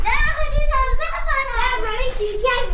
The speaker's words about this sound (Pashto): په کوڅو کې ماشومان په یو بل پسې د واورې ملګوري ولي او ساتیری کوي.